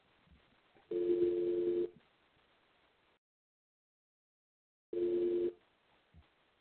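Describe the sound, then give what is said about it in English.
A telephone dialing in to a private group call: two steady electronic tone bursts, the first about a second long and the second shorter, separated by a few seconds of near silence and faint line hiss. “Let me call in.”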